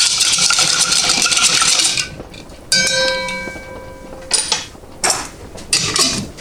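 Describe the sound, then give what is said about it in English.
A spoon stirs a drink with ice in a vintage glass. One ringing clink is followed by a few sharper, brighter taps of metal on glass over a steady noisy background. “somewhere in here, I should have a spoon. Yeah. So we'll stir that up.”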